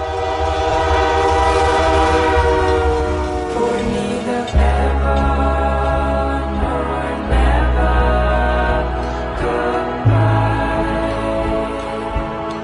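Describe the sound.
A train passing with its horn sounding, a loud sustained tone over heavy rumbling and rail clatter, with several abrupt jolts and clanks along the way.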